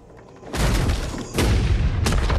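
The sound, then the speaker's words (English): Gunshots from a masked gunman's gun in a film scene come as a few loud, booming blasts, each a sudden burst that leaves a heavy, sustained low rumble running between the shots. “The masked gunman shoots at McCaleb. As each bullet rips into his torso, the negative image momentarily changes to colour.”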